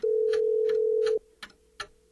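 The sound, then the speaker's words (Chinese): A telephone ringing in a living room: one steady, mid-pitched electronic tone held for just over a second, then cut off, with soft, regular ticking under it and after it. “就在这个时候，客厅里的电话却着急地响了起来。”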